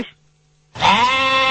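A goat gives a loud, sustained bleat, a rich harmonic cry lasting most of a second, after a brief faint sound and a short quiet gap.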